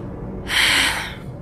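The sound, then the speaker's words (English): One deep breath: a single breathy rush swells and fades over about half a second, heard alone without any talk. “I take a deep breath.”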